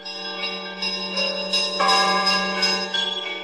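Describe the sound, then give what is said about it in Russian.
Church bells ringing briskly late at night, a dense peal of overlapping metallic tones that rings continuously and swells slightly midway through. “Поздно ночью кулич пришел под бодрый звон колоколов.”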